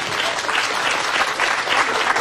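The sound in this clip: A short burst of audience applause in a radio studio for two children, dense and lively, holding a steady level throughout.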